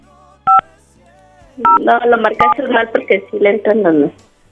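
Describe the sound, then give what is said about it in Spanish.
A few short telephone keypad tones sound while a number is dialed: a lone beep first, then more beeps that overlap voices speaking Spanish. “No, tal cual, así como me lo mandaste, así lo estamos marcando.”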